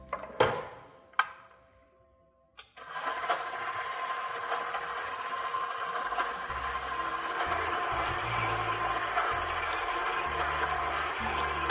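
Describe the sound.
Stand mixer motor running on its lowest stir speed while mixing dough. A few faint clicks come first, then a steady, quiet whirring hum with a low, rhythmic churning pulse continues to the end.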